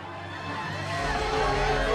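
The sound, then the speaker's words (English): A crowd cheering someone on, a dense babble of voices and shouts that swells gradually louder across the two seconds. “With the crowd cheering him on, Sunday turns to look at his opponent.”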